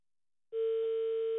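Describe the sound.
A telephone rings on an unanswered call. After half a second of silence, a steady, single-pitched ringing tone starts and holds unbroken to the end.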